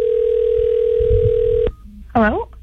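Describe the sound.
A telephone line tone plays as a call goes out to a radio contest winner. The steady, continuous tone cuts off abruptly and is followed by a brief voice.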